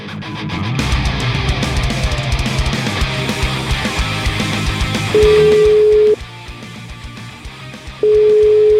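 A telephone ringback tone on an outgoing call from a radio studio to a lawyer sounds as two long, steady, mid-pitched beeps separated by a pause, following several seconds of dense, busy sound.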